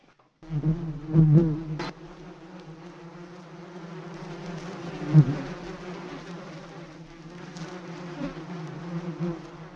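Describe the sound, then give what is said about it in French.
Bees buzz inside an educational observation hive, a steady droning hum that swells louder in the first couple of seconds, then continues evenly with small surges. “dans les locaux de l'OCCE pour voir notre ruche pédagogique que l'on appelle aussi un apiscope”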